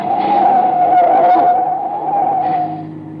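Tires screech as a car swerves and skids off a road in the dark: a loud, sustained high-pitched squeal over engine noise lasts nearly three seconds, then eases off.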